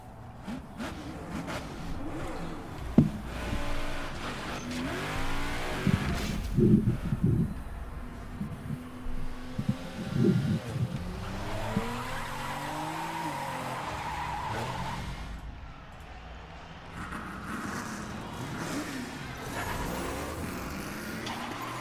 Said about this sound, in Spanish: Es un tráiler normal, bueno, con carreras de drags. Ahora aparece la moto.